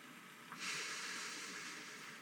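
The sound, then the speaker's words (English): A deep breath drawn in during a guided relaxation, a soft airy hiss that begins partway through and holds steadily to the end. It is faint and without talk. “I'd just like you to take a deep breath in”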